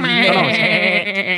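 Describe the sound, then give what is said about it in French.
A voice imitates a half-dead goat bleating: a loud, quavering, wavering cry held for about a second and a half, breaking up slightly toward the end. “J'ai vraiment pleuré comme une chèvre semi-morte sur le sofa.”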